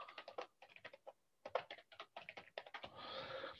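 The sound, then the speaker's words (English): Typing on a computer keyboard: many quick, irregular keystroke clicks in short bursts with brief pauses, fairly quiet and alone without talk. “I'll type this in the group box.”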